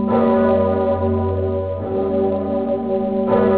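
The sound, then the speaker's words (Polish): A large bell at Wawel Cathedral tolls on the 11 November Independence Day anniversary, a deep, loud, resonant hum rich in sustained overtones, renewed by a few fresh strikes about every second and a half. “Dzwon Zygmunt rozbrzmiewa tylko w czasie świąt kościelnych i w najważniejszych chwilach dla narodu.”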